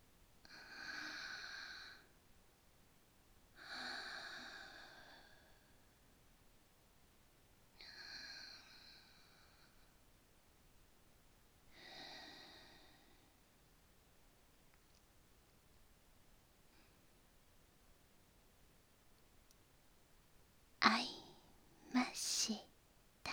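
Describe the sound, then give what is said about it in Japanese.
Deep breathing done together as an exercise, four long, soft breaths spaced a few seconds apart over near silence, followed by a couple of sharper, louder bursts at the end. “さあさあ、ご一緒に息合わせの深呼吸。”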